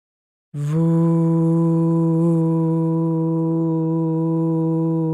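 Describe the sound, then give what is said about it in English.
A voice makes a long, extended 'voo' sound on the out-breath, resonating from the belly during a stress-release breathing exercise. It is a single low, steady tone that holds its pitch and loudness evenly through the whole exhalation. “On the out-breath, make an extended voo sound, sustaining the sound throughout the entire exhalation.”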